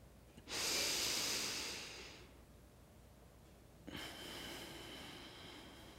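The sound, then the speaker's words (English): Deep breathing out during a breathing exercise: a long, airy, fairly loud exhale lasting over a second, followed after a pause by another long breath. “Do one more. Breathe out all the way.”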